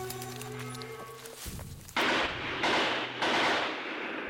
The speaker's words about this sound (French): C'est un fusil mitrailleur qui est là, 100 mètres à gauche, derrière des filaros, derrière des arbres